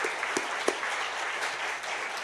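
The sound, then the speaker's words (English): An audience applauds to thank the staff, steady overlapping clapping at a moderate, even level with a few sharper claps standing out early on. “I want to thank them with just an applause for how well they serve here.”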